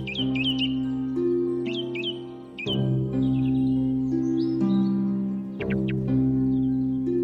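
Bird song, a thrush singing in countryside, heard as a few short, bright chirping phrases over a steady, sustained low tone.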